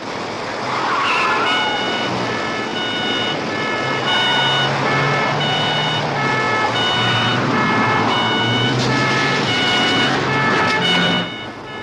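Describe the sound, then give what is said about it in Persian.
A police patrol car chases a fleeing Peugeot with loud, sustained engine noise and tyre squeals, and a repeating electronic beeping tone pulses above the roar until it drops away near the end. “از گشتی 4 به اسکای مرکزی پژو فراری رو تعقیب میکنیم.”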